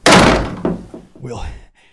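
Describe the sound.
A door slams shut against a horde of demons with a loud, heavy thud, followed by a few softer knocks and thumps that fade out.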